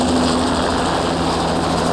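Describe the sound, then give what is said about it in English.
A helicopter engine and rotor give a loud, steady whirring roar. It runs continuously and unchanging for about two seconds, with no voices over it. “Lamb and Barrows walk back to the helicopter”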